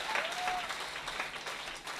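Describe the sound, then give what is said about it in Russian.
Church audience gives the Lord a hand with warm, continuous applause from many people, fairly soft and even, with a slight swell of louder claps along the way. “Let's give the Lord a hand. Давайте воздадим Богу аплодисменты.”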